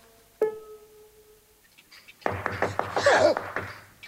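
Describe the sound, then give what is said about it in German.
Knocking on a door: one sharp rap, a quiet pause, then a run of rapid, loud knocks. “Da draußen hat jemand gegen die Tür geklopft.”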